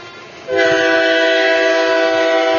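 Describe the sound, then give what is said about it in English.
A train sounds at a railway station. After half a second of low background, a loud, steady, multi-tone horn-like blare starts and holds unbroken to the end over a low rumble. “Is it our train that's moving?”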